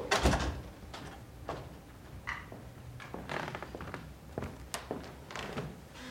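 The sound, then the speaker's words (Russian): A butler shuts a door with a heavy thud, followed by several softer knocks and taps in an uneven rhythm, with no voices. “Дворецкий закрывает за ними двери.”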